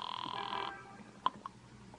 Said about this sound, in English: Don't mind if I use your phone, citizen.